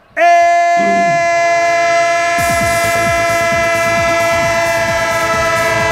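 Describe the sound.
A train sound effect: a loud, sustained multi-tone horn blares throughout, and after about two seconds a steady rhythmic clatter of wheels on rail joints starts beneath it.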